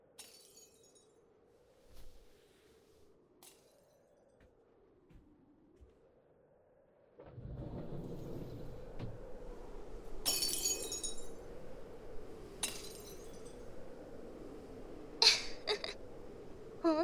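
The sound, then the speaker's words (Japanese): Space cracks apart like breaking glass, heard as a faint, wavering low drone that gives way to rumbling noise, with several bright, brittle shattering cracks cutting through. “すごいわね。至る所で空間がひび割れて、あらゆるものがボロボロになって朽ちていく。”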